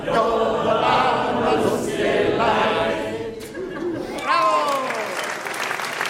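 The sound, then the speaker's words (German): A concert audience in Miesbach applauds after a folk song about the days of the week. The clapping is dense and loud for several seconds, then thins, and voices talking come in near the end. “Applaus im Weizinger Keller in Miesbach”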